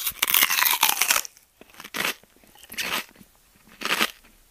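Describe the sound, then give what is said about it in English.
Someone chews a huge mouthful of sweets with loud, crunchy crackling. A long stretch of rapid crunches comes first, then three shorter separate bursts. “You gobble up a huge mouthful and chew using all of your facial muscles.”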